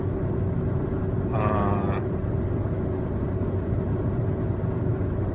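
A steady, droning hum of road and engine noise from inside a car cruising eastbound on Interstate 80 on an evening in 1999, constant and unbroken throughout.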